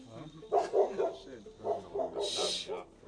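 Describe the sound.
A neighbour's dog barking in a quick series of short, repeated yelping barks mixed with higher, whimpering notes, moderately loud throughout.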